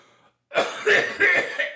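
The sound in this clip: Raspy, harsh coughing from someone who has just drawn weed smoke into the throat: a few rough, hacking bursts in quick succession, loud and without any talk.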